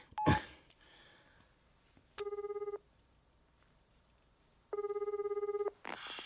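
Beeping keypad tones as a telephone number is dialed, in two rapid runs of evenly pulsed beeps separated by a pause. A short knock comes before them and a brief clatter follows at the end.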